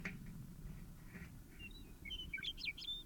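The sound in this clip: Bird calls ring out as many short, high chirps and tweets, sparse at first, then clustering densely toward the end over a steady low rumbling background noise.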